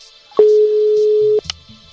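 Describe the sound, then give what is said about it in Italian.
A telephone call tone sounds as a voice call is started on a phone: one steady, mid-pitched tone holds for about a second, then cuts off into a few faint clicks and low murmurs. “Avvia chiamata vocale, ecco, con Marco qua.”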